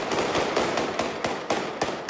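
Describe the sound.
Police gunshots fired into the air to break up a brawl between two families: a rapid run of many sharp cracks over dense, continuous noise.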